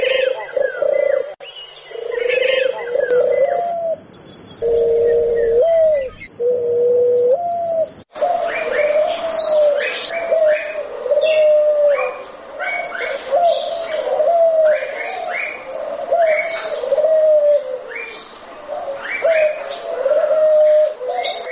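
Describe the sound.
A turtle dove cooing in a long run of low, rhythmic, repeated coos, with brighter chirps from other birds layered above throughout.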